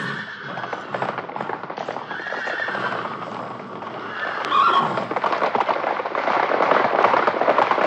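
Horses setting off at a brisk trot, a steady run of many clip-clopping hoofbeats with a horse neighing partway through.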